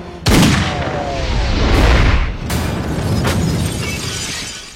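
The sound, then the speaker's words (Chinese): Gunshot in a Chinese suspense thriller film: a sudden loud blast followed by a rumbling, crackling tail with a couple of further sharp cracks as it slowly dies away. “可正当他开枪准备同归于尽的时候，仿佛受到了神明的庇护，子弹却来了个九十度的转弯，诡异的把小舅子给打死。”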